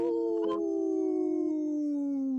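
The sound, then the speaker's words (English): A single wolf howl holds a long, steady, high-pitched tone that slowly slides downward, with a brief rustle near the start and nothing else over it. “protecting wolves for future generations. Howl!”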